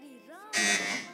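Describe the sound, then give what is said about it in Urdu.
A quiz show buzzer is pressed by a school team: a single harsh, loud electronic buzz cuts in after a voice and holds briefly before fading. “Buzzer بہت close بجی ہے لیکن پہلے اے are M I school کی team نے buzzer بجایا ہے”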